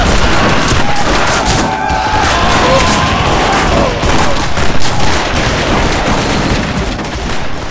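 Soldiers firing from behind rocks unleash a loud volley of gunfire, many dense, overlapping shots and cracks crowding together in an unbroken barrage throughout.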